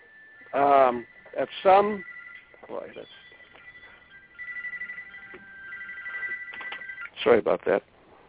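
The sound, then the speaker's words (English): A cell phone ringing with a steady, high electronic tone that holds for several seconds, with people talking before it starts and again after it stops. “that was my cell phone”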